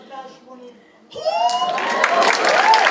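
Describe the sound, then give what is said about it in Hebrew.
Audience clapping and cheering swells up after a brief voice, building into a dense, steady wash of claps with shouting voices riding over it until the end. “איפה כפיים?”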